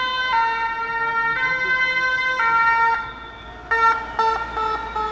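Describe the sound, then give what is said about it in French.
Loud two-tone siren from a striking firefighters' fire engine passing protesters at a rectorate blockade in Rouen, alternating between high and low pitches in steady cycles over constant street noise. “Et les pompiers en grève qui passent en saluant les manifestants avec un camion complètement marqué de slogans de grève.”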